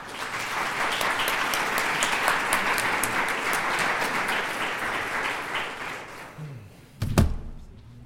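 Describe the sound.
Sustained audience applause welcomes a lecturer at an evening talk on earthquake disasters. The dense, even patter runs for about six seconds and thins out, followed by a single low thump.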